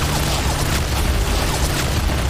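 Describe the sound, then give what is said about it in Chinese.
Artillery shells explode and blow up bunkers in a Chinese civil war battle scene, a dense, continuous rumbling roar of blasts with no clearly separate bursts, loud throughout. “蒋王的炮火太厉害了，把他们该修的碉堡全炸了。”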